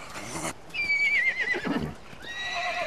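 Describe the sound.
A young horse, a colt, neighs in a high, wavering whinny that trembles and falls away. A second neigh begins near the end.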